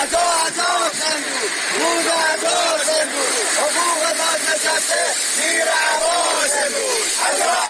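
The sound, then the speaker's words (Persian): A crowd of social security retirees chants slogans at a protest outside the Khuzestan social security office in Ahvaz. The loud, rhythmic chanting runs in unison and repeats throughout. “از بازنشستگان تامین اجتماعی در اهواز روز یکشنبه در اعتراض به عدم رسیدگی به مطالباتشان در برابر اداره کل تامین اجتماعی خوزستان تجمع کردند و شعارهایی از جمله حقوق بازنشسته زیر عباس امروز سر دادند.”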